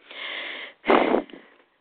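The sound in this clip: Breath being taken in, heard as two airy breaths alone: a softer, longer draw of air followed by a louder, sharper intake and a faint trailing rustle.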